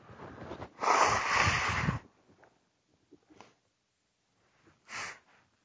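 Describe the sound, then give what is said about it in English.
A person blows their nose with one loud, long, breathy honk, followed by faint rustles and small sniffs, then a second shorter, sharp nasal burst near the end. “Sorry, I have to blow my nose.”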